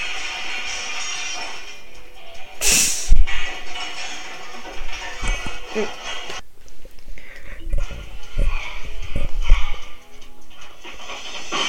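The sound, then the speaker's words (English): A door being smashed in: one sharp, loud crash, then a steady run of rough banging and clattering noise that carries on to the end. “I have to replace every door you people smash. Can't you at least try the knob first?”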